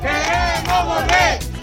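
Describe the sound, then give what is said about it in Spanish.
A street protest crowd in Ceuta at night shouts together in a rhythmic chant. A few loud, voiced calls rise and fall in unison. “Este es el sonido de las protestas de esta noche.”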